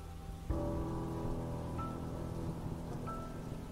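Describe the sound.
Steady rain falling on the ground, a dense continuous hiss that swells in shortly after the start and then holds even throughout, with a low sustained tone running underneath.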